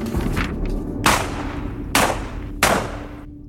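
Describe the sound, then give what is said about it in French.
Submachine gun fire: three loud, sharp, cracking shots spaced unevenly, each with a brief decaying tail, preceded by a couple of fainter hits over a low steady hum. “Et il attrape un pistolet mitrailleur. Un instant de flottement, puis une rafale, trois balles.”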